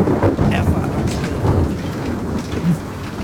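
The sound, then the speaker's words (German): Thunder from a thunderstorm, a deep, loud, continuous rumble with a rushing hiss on top, swelling slightly a few times but never stopping, with no talking. “Es donnert schon wieder.”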